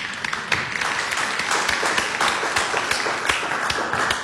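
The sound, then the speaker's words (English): An audience applauds four children welcomed as new disciples at a religious service, with dense, steady clapping that holds at an even loudness throughout and no talk. “Welcome. Everybody, give them a hand.”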